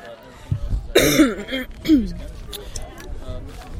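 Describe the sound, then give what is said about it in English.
Phlegmy coughing: a few harsh, wet coughs and throat-clearing rasps in an uneven cluster, the loudest bursts early and a rougher hack following, fading to a low murmur at the end. “These phlegmy coughs”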